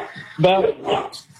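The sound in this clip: A dog barks briefly during a call-in phone conversation, a short yelping bark mixed with whimpery tones, heard under and between people talking.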